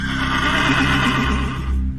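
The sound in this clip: A horse neighs loudly in a long, wavering whinny that fills the whole two seconds, rich and shrill with a trembling, shaky quality.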